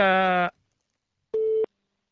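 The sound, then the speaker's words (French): Ringing tones from an outgoing telephone call heard over poor-quality CB audio. Two short tone bursts are separated by a pause, and the first is buzzier and richer than the second, steadier one. “Ça sonne.”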